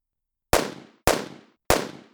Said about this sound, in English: I heard the first two bullets go whizzing past me.